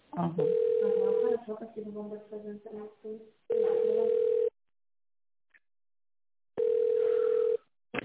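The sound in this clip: A telephone ringing tone plays while a business call is being transferred: three even, steady rings of about a second each, separated by longer gaps. Voices talk over and after the first ring.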